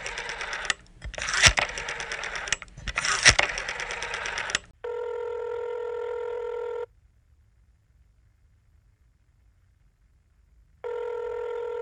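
A telephone call being dialed: several seconds of irregular clicking and clattering bursts, then a steady buzzing ringback tone that sounds twice with a long silent gap between, with no voices.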